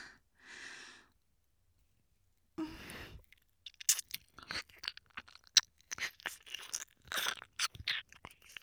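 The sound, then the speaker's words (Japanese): Close ASMR ear-nibbling mouth sounds: quiet, wet nibbles, crunchy chewing clicks and soft breaths come in irregular bursts, following a brief breathy sound and a silent pause. “君の美味しいお耳もっとハムハムさせてね”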